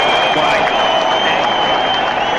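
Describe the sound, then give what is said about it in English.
Stadium applause sound effect: a dense, steady wash of clapping and crowd noise that stays loud and even from start to finish, with no pauses. “What? Are you getting stadium applause again? My God. Stadium applause out of nowhere.”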